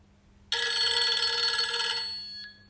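A telephone bell rings in one loud, bright, continuous burst of about two seconds, then stops.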